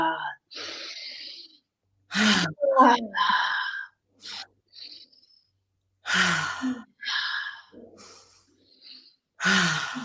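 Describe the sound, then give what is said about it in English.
Deep breaths drawn in through the nose and let out through the mouth with sighing exhales during a breathwork exercise. Several breathy, rushing bursts alternate with short pauses, alone without speech. “Big deep breath in through the nose, out through the mouth.”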